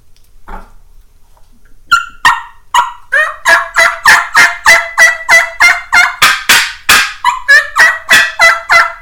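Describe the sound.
Several wild turkeys calling in a loud, rapid run of evenly spaced, throaty gobbling yelps that keep a steady rhythm after a faint opening call.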